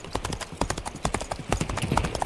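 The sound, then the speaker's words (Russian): Horse hooves clip-clopping at a brisk, large trot, with many sharp, regular hoofbeats in a quick, steady rhythm and no talk. “Конь побежал крупной рысью”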